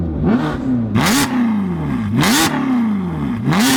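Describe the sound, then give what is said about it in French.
Car engine revving through an Armytrix exhaust with the valve closed, several sharp throttle blips that rise steeply in pitch and then fall back to a rumbling idle between them, loud and with no talk. “Oh, avec un échappement Armitrix.”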